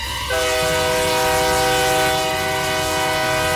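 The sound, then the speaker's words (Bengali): Train engine rushing along a railway line past a bungalow, its horn blaring in a loud, steady, sustained tone that starts abruptly and holds over a constant rumbling roar. “একখানে engine হুড়মুড় করে এসে একেবারে তার দেহের উপরে এসে পড়ল”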